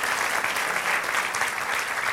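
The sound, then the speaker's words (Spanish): An audience applauds during a Spanish-language church service: thick, even clapping from many hands that holds steady at full strength for the whole two seconds. “Sí, da el aplauso al Señor.”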